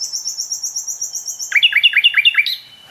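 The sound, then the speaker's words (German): Common nightingale singing: a high, rapid pulsing trill held for a second and a half, then a burst of several loud, buzzy repeated phrases ending in a brief higher note. “Also ich stehe jetzt bei der Hotspot Nachtigall. Und das ist auch die von der ersten Aufnahme. Das ist die, als allererstes hier ankam.”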